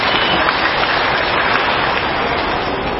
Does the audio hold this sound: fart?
no